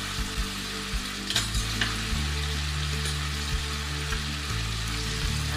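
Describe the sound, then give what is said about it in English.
Garlic fries in a pan during home cooking for a family, giving a steady, dense sizzle throughout. A few light scraping and clicking stirs and a low, constant hum sit beneath the sizzle. “I just add the garlic here.”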